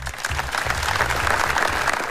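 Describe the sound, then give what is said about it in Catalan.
Dense, steady applause from the crowd at a memorial ceremony for three children aged 12 and 13 who were swept away by currents. The clapping is continuous and even throughout, with a low hum running beneath it. “S'ha guardat un escrupolós minut de silenci només trencat per aquests aplaudiments.”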